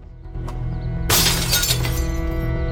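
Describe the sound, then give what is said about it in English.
A glass window pane in a house's back door shatters in one loud, sudden crash, its bright spray of breaking glass holding for over a second above a low, steady background hum. “Shattering the door's window pane allows him to reach through, and with a rag over his hand, he unlocks the back door and enters”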